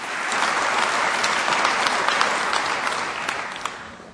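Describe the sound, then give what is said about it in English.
An audience applauds to welcome two speakers to a short discussion session. Bright, even clapping swells slightly and then tapers off gently toward the end. “So please welcome Tim Radford and James Lovelock.”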